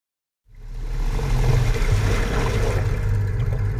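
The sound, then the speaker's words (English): An outboard motor drives a boat toward a forest near Barclay Sound on the west coast of Vancouver Island. After a brief silence, a steady low engine drone with churning, rumbling noise starts up and holds evenly. “That sound you hear? That's an outboard motor.”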